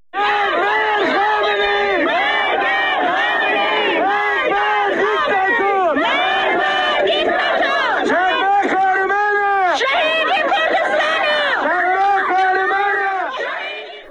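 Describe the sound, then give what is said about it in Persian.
Protesters and mourners chant slogans together at the grave of Shadman Ahmadi. Many voices rise and fall in loud, rhythmic unison, holding steady throughout with no pause. “صدای شعار معترضان و عزاداران رو بر سر خاک شادمان احمدی هم میتونیم با هم بشنویم.”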